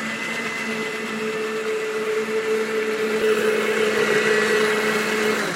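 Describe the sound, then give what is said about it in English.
A blender runs steadily while sesame oil is drizzled in to emulsify a sauce. Its motor gives a constant whirring hum at an unchanging pitch that grows slightly louder toward the end. “Again, this is sesame oil. Sesame oil. And you're going to do that as you're blending? Yes.”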